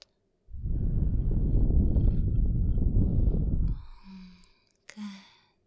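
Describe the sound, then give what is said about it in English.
A deep breath taken on request during a medical examination. One long, steady, airy breath lasts about three seconds, followed by a couple of brief, softer sounds. “Take a deep breath in. And breathe out.”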